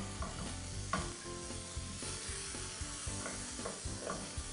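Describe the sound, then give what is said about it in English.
Sizzling of steamed zucchini and summer squash cooking in a pan: a steady frying hiss with a few scraping stirring clicks scattered through it, no voices. “And then I'm going to add my steamed vegetables. So we have here some zucchini and some summer squash. I'm going to cook that.”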